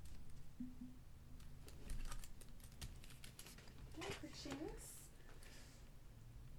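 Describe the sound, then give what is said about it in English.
Typing on a computer keyboard: faint, quick keystroke clicks come in a scattered run beneath a voice talking throughout. “Okay, I just typed in saucy clarinet”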